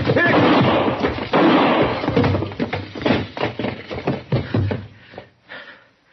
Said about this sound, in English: Don't shoot again